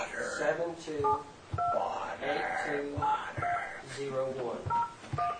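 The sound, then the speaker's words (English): Telephone keypad tones entering a passcode: a few short two-note dial beeps pressed one after another, heard along with voices in the background. “Please try entering your passcode again, followed by the pound or hash key.”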